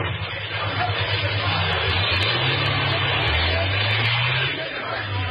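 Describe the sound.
Chopper motorcycle engine starting and riding off, a throaty, revving drone whose pitch climbs in stretches as it pulls away, heard steadily throughout.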